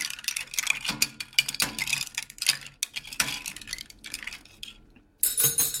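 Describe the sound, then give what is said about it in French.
Ice clinks and rattles against glass as a cocktail topped with sparkling water is stirred. Light, rapid clinks and ticks run fairly quietly and unevenly, then stop briefly before a louder flurry of clinks at the end. “Et je tope avec un petit peu d'eau gazeuse. Ensuite, on remue le cocktail.”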